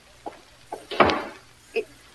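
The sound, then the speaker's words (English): A door being closed lands as one solid thud with a brief rumbling tail, with a few lighter knocks around it. “Close that door.”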